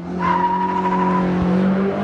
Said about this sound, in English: Japanese, American, and German rear-wheel drive vehicles are skidding and swirling in what some have called ballet on pavement.